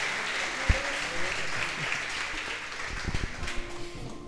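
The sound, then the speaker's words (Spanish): An audience at a religious seminar applauds the actors with a dense, steady clatter of clapping hands that grows a little more uneven toward the end. “un aplauso para los actores”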